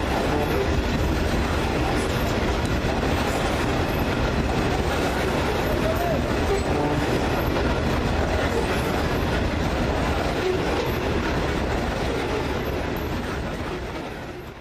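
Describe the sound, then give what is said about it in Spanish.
A loaded coal freight train passes in La Guajira: a dense, steady roar of wheels and wagons that stays loud and even throughout and eases off slightly at the very end. “el tren del Cerrejón cargado de carbón.”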